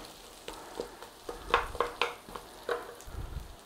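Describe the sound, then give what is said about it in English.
Carrots frying in oil in a pan over a moderate flame, a soft, low sizzle broken by a few sharp knocks and scrapes of stirring. “Right, flame not too high. I'm going in there with the carrots first.”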